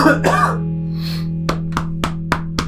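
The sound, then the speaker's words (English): Throat clearing and coughing up phlegm: a raspy clearing at the start, then a run of five short, sharp coughs at an even rhythm over a low constant hum. “Go ahead. Phlegm out all that drainage.”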